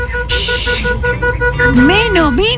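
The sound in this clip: A car horn honking in a series of short, repeated toots at a steady pitch, with voices talking over it toward the end.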